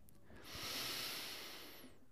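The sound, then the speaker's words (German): One long, deep breath taken during a calming breathing exercise, a soft airy hiss that swells over the first second and then gradually fades away, heard alone without talking. “Lass uns erstmal einen tiefen Atemzug nehmen.”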